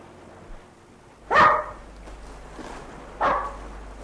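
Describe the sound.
Two sharp barks from a small dog during an afternoon walk through an estate park. The barks are spaced about two seconds apart and stand out clearly over a quiet, steady background.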